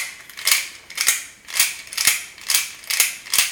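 A lock bolt, freshly treated with penetrating oil, is worked back into its lock, giving a run of about seven evenly spaced, crisp ratcheting clicks that swell and fade, with no talk.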